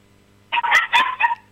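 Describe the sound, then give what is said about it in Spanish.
A female dog barks in a quick run of a few sharp, loud barks in under a second, with no talking around them. “Ahí empezó mi perra a ladrar y esto va a ser tremendo.”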